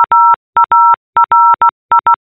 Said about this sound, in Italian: Io sono Maria e questo è il mio nome in codice Morse